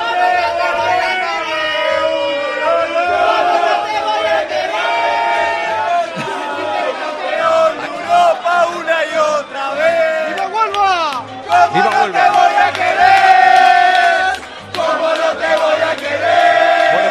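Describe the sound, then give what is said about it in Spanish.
Real Madrid supporters chant and sing in a pub in Piccadilly Circus, London. A loud mass of voices holds sustained sung lines, broken by brief pauses and shouts. “Sonido de Piccadilly, ¿eh? Así suena ahora mismo uno de los pubs que hay en Piccadilly Circus, la zona más turística por excelencia.”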